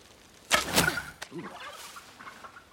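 An arrow is loosed from a bow at a turkey standing in a thicket of ferns: a sharp, whooshing burst, then a single hard thunk, followed by a few brief, faint fowl-like calls.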